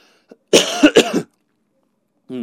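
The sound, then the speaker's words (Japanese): A sudden choking cough bursts out as a tight cluster of harsh hacks, followed by silence, and a brief voice begins right at the end. “何か突然むせてますけれども”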